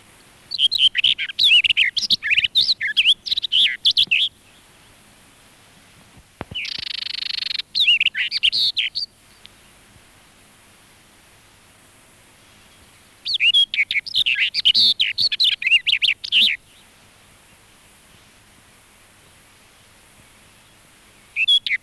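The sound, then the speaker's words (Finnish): Barred warbler song in a few bursts of rapid, high, scratchy chattering phrases, with stretches of near silence between them. “Kirjo Kerttu.”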